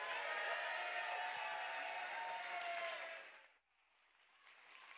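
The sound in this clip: Church audience applauds as an elder is welcomed to the stage, a thick wash of clapping with some crowd noise. It holds steady, then fades sharply near the end and leaves a quieter hum.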